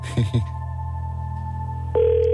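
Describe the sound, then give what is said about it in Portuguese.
Telephone tones sound as a number is dialled for a call: a brief voice at the start, then a steady tone, then a louder, lower tone cutting in near the end. “Portanto, vamos tentar marcar aqui o número e a ver se ela consegue falar connosco. Ok? Vamos lá ver se ela atende.”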